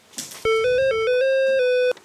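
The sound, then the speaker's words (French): Mobile phone ringtone for an incoming call: a bright electronic melody of stepped notes moving up and down in pitch, loud and alone, starting abruptly and cutting off sharply after about one and a half seconds. “Il y a ma mère qui appelle.”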